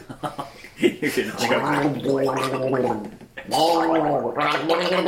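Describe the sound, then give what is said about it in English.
A voice imitates gargling for a character, wet, throaty, bubbling sounds in two long stretches with a brief pause between, loud and rough. “Yeah, but it's played by you, so get gargling. This is gonna be messy.”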